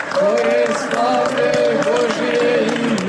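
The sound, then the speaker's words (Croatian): A crowd singing together at a church in Montenegro, with voices rising and falling in a sustained chant-like melody over a bed of crowd noise, loud and continuous throughout. “Pokloni se, pa ispravi, pa zagrli mitropolita Amfilohija, pa aplauz koji čujete i pesma.”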